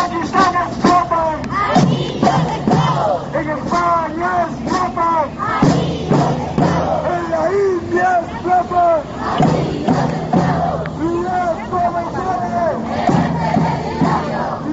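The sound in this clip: A large crowd of young people and teenagers chants demands against child slavery during a solidarity protest march in Spain. The voices are loud, rhythmic and continuous, with many people shouting together in repeated phrases.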